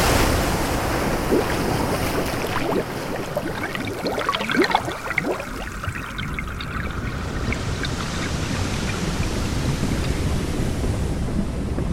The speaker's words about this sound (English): I can feel and hear all the swishes from the waves